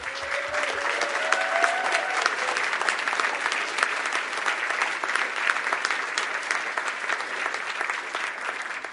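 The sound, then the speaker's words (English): An audience applauds as a warm welcome: a dense, steady wash of many clapping hands carries on without a break from start to finish. “let's give a first kind of warm ECC welcome. Um, let's give a hand.”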